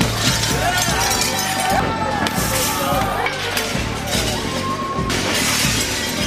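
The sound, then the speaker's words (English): Shop windows and store glass are smashed during a riot, with many sharp shattering crashes and clinks of breaking glass. Excited voices run underneath throughout. “Do you know what that is? That's the sound of capitalism being smashed. I cannot even count how many corporate stores were vandalized.”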